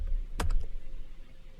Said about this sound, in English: So I'll change that by pressing N, and I'll type in Emacs Conference.